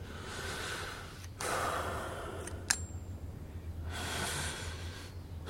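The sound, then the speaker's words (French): A patient breathes deeply during a heart examination: long, airy inhales and exhales with one sharp click partway through, and no talk. “Respirez profondément.”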